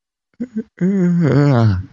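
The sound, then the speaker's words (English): A long voiced yawn follows two short breathy catches, swelling into a sustained wavering moan that tapers off at the end. “I'm yawning.”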